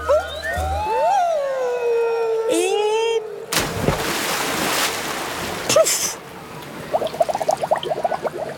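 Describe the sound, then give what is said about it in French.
A splash as someone falls head first into water at the bottom of a water slide: a loud, broad burst of water after a stretch of whistling, sliding tones, followed by churning, rushing water. “À l'arrivée, Toudou tombe la tête la première dans l'eau.”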